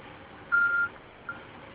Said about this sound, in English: I am not available to answer your call at the moment. Please leave a message after the tone, and have a nice day.